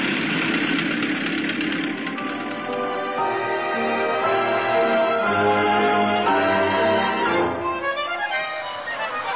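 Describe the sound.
A bus engine runs at a bus stop, a loud, steady idling rumble with a rattling, knocking vibration that continues without a break and with no voices over it.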